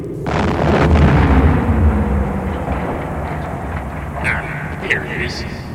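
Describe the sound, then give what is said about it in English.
An escape pod blows up in a deep, broad explosion roar. The roar swells within the first second, then rumbles on and slowly eases, with a few brief crackles near the end. “They're getting away in an escape pod. That's funny. Where's the kaboom?”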